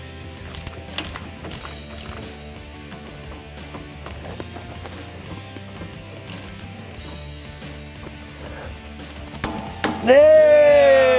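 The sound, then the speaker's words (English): A ratchet tightens the pinion nut, coated with red Loctite, on a vehicle drive shaft to 125 foot-pounds. Many rapid clicking bursts run throughout, ending with a louder metallic squealing tone. “We're going to put the new one on, starting with the pinion nut, some red Loctite. Once we've got that on there, we're going to tighten that down to 125 foot-pounds.”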